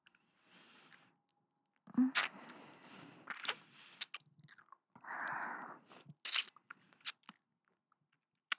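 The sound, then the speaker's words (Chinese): Someone bites and chews food, with a few sharp, crunchy bites and softer mashing between them, all quiet and with no talk. “好久没有吃你的了，好好吃啊。”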